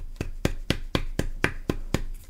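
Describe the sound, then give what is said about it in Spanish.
Eight sharp, evenly spaced taps as the thin end of a hammer is struck like a chisel. Each crisp hit has a brief scraping tail, and the whole is fairly quiet. “Esta parte voy a estar usando la otra parte del martillo, ya que es algo más fina y actúa prácticamente como un cincel.”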